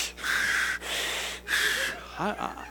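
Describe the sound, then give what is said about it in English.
A voice imitates Darth Vader's heavy mechanical breathing: three long, raspy, hissing breaths in steady succession, fairly loud, with brief softer sounds after them. “I was having a Darth Vader moment. I wanted to breathe like that.”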